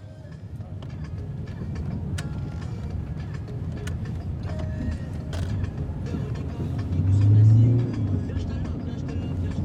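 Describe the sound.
A car drives along a route near Ouidah, giving a steady low road rumble with creaks and rattles throughout that swells briefly near the end.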